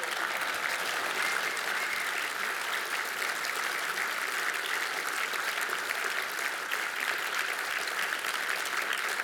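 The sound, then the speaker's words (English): A crowd applauds at a show as an actor is introduced, with even, dense clapping holding at a steady level from start to finish and no voices over it. “ladies and gentlemen, let's give an awesome big round of applause for Cliff Curtis.”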